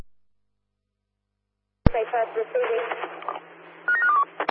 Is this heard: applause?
no